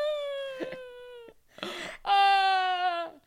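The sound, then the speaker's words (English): A woman wailing in drawn-out, high, quavering cries: one long wail, a breathy sobbing gasp, then a louder second wail that trails off. “And she exits the widow walk and heads back in the house. Just wailing.”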